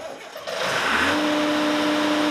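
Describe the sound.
A boat travel lift's engine runs as a boat sits in the lift bay, ready to be hoisted out of the water. It is a steady, loud mechanical drone that builds after the first half second and settles into a constant hum with a sustained tonal whine.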